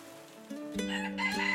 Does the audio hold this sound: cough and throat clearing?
no